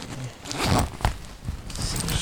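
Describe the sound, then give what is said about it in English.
A zipper being pulled open gives a few short, raspy scraping bursts of moderate loudness in quick succession, with a brief rustle between them. “I'm going to take that motherfucking zip off.”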